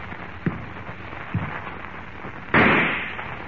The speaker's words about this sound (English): Suddenly, the rifle in Harmon's hands thunders its message of death,